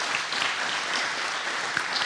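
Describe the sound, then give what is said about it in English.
A church audience applauds with hand claps: dense, steady clapping from many people that continues evenly throughout, with no pause. “Give the Lord a hand clap.”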